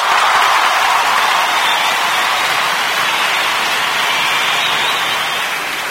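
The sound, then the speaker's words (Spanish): Audience applause at a spring festival show, a dense and continuous wash of clapping that stays loud and steady from start to finish. “¡aplaudamos más fuerte! ¡Pongámonos de pie!”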